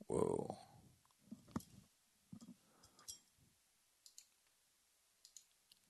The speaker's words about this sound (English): Let me punch my zip code in here.